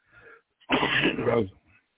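A person clears their throat, as if something is stuck, in one harsh, raspy burst lasting under a second, with short faint breathy sounds just before and after and no words.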